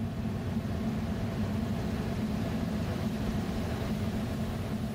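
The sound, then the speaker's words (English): Car driving along a river: a steady low engine rumble with road noise holds evenly throughout, with no voices. “Okay, I'm going to drive along the river.”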